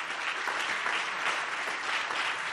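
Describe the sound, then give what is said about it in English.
A church audience claps for mothers at a Mother's Day service, a steady, even patter of many hands that stays at a fairly soft level throughout, with no clear voices on top. “Let's give them all a hand.”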